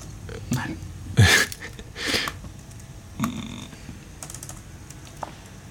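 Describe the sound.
Computer keyboard typing, heard as a few scattered, irregular key strikes and clacks, fairly faint over a low background hiss.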